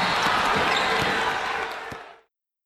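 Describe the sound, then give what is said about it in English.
Basketball bouncing during a game: a few dull thuds over a steady, broad wash of noise that cuts off abruptly near the end. “They're playing basketball. He shoots. He scores.”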